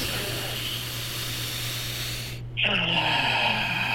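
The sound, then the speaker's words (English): During a guided breathing exercise, a long, steady inhale through the nose hisses softly for about two and a half seconds, then gives way abruptly to a louder, airier exhale, over a faint constant low hum. “we'll breathe in through the nose till our lungs can't get any more air in them, and then we're just going to let it all go. Let's get in three of those. In three, two, one, all the way in through the nose.”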